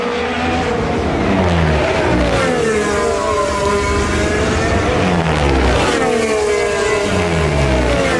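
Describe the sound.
Formula 1 car tyres running over a kerb under a loud racing engine whose pitch swings up and down through gear changes, steady and dense throughout, with no talk.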